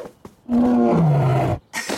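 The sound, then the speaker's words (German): A tiger roars once, a loud harmonic growl lasting about a second. Its pitch holds, then drops lower, with brief faint sounds just before and after. “Begeistert sprang der Tiger hinein.”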